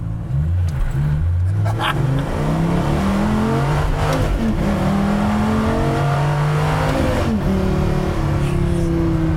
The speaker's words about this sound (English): That, folks, was 0 to 84. And what was that? 7 seconds?